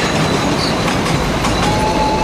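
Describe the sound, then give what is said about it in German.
An old train rattles over the rails in a loud, continuous clatter of wheels and carriages, with a thin metallic wheel squeal rising out of the noise near the end. “So hört sich das an, wenn so ein alter Zug über die Gleise tuckert.”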